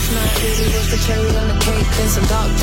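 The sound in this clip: A pop song plays on the radio, loud and continuous, with a steady rhythmic beat over sustained bass tones.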